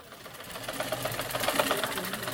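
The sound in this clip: Manual sewing machines clatter in a cutting and sewing training workshop, a fast, steady mechanical rattle that runs throughout while a voice speaks over it.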